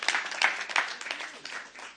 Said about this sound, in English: Give yourself a hand.